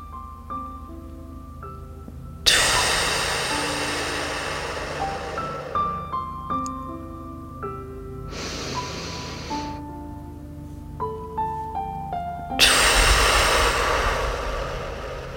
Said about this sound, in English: Deep breath in. Let it out. And deep breath in.